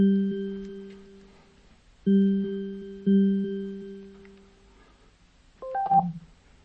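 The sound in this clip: A smart speaker starts a phone call. A steady electronic calling tone sounds three times in a row, then a short, bright chime of a few notes.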